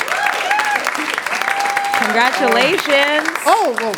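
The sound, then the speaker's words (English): An audience gives steady applause at an anniversary celebration event, with voices whooping and calling out over the clapping. “Give them a hand, please.”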